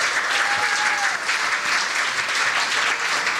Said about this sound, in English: Give them a massive round of applause